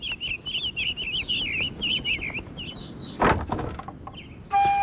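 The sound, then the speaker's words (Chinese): A house door is opened with a short, sharp scraping burst midway through. Before it, a string of bird chirps repeats rhythmically over soft background noise. “杨震打开屋门”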